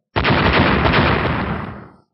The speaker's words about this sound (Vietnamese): Ba tiếng nổ mạnh liên tiếp truyền ra